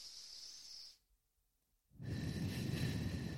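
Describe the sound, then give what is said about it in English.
Slow breathing in through the nose and out through the mouth during a calming exercise: a soft hissy breath, a second of silence, then a longer, fuller and louder exhale. “breathing out your mouth. And what I want you to do is really slow the exhale.”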